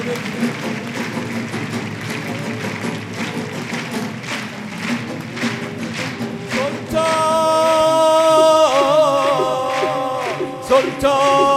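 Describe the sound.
Rhythmic hand clapping in unison fills a religious gathering devoted to Imam Reza. The steady beat runs under music and voices, and sustained tonal notes join partway through.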